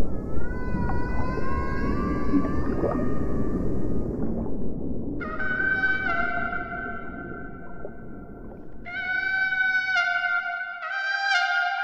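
Whale song from migrating whales out at sea: long, overlapping tonal moans and whistles with bright harmonics, some gliding and some held steady, over a low constant rumble, with no voices.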